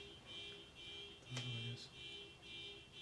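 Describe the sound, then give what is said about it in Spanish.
A faint alarm keeps sounding, a steady high-pitched electronic tone with a lower hum beneath it that carries on without pause. “Yo siento que esto está terriblemente sonando a que no va a parar. Pero si apago la alarma,”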